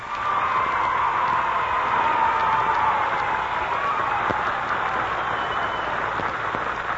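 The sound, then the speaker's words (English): An audience applauds to welcome the band Uncle Bill and the Pretenders onto the stage, a dense, steady wash of clapping that holds throughout and thins slightly near the end. “So what do you say we give them a big hand as they come on stage,”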